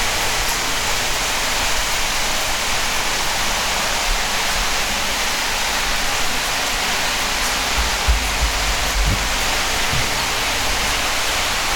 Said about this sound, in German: so kriegt ihr mal wirklich mit, wie es hier regnet